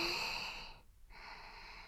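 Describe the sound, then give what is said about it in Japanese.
Faint deep breathing during a rest break: a soft, airy breath in, a brief pause, then a gentle breath out, quiet and steady with no voices. “ほら、大きく息を吸って、”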